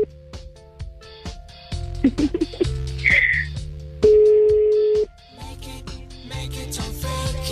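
A telephone call tone from a call that goes unanswered: a steady, loud tone of about one second, set among busier clicks and other short tones.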